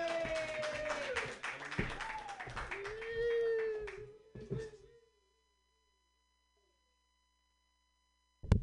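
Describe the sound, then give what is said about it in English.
Audience applause and clapping for a comedian at a stand-up show, scattered claps running under a voice calling out to the crowd before it all drops to silence at about five seconds. “Put your hands together for your next comedian”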